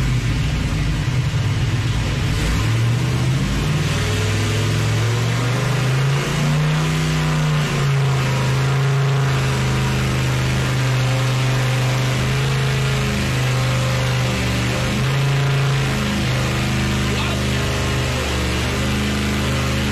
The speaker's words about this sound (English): It's got to be loud because, and I know this is on a dyno, we're going to be cranking out over 400 horsepower out of that 302 that is now 347.